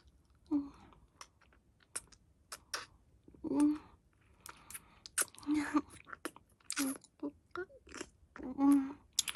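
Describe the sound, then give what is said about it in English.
Wet mouth sounds of sucking and smacking: a few soft, brief voiced hums among sharp clicks and slurps, quiet and irregular. “I just need to give it a tiny little suck.”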